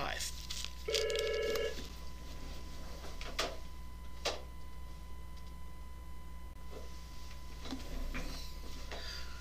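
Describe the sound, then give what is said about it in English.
A telephone rings in one short electronic burst near the start, a bright tonal ring set against ongoing speech and faint scattered clicks. “The phone's ringing like crazy today.”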